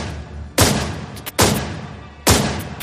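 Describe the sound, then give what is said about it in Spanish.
A .38 calibre revolver fires three sharp, loud shots in a cold-blooded shooting in New York. Each bang has a heavy crack and a short fading tail, with pauses of nearly a second between shots. “El que empuñó un revólver del calibre 38 y le disparó a sangre fría.”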